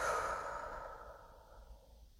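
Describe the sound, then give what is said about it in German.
A deep breath out: one long, airy exhale that starts fairly strong and slowly fades over about two seconds, alone and without talk. “Nimm mal ein paar Atemzüge in deinem Tempo, atme mal tief ein und aus.”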